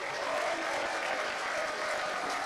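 An audience at a live entertainment show applauds a singer with a dense, even stream of clapping that holds steady throughout.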